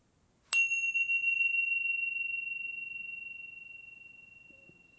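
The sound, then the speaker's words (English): A meditation bell is struck once during a guided meditation, giving a quiet, clear high tone that lingers and fades slowly over several seconds in otherwise near silence. “In a moment, I'll ring the bell.”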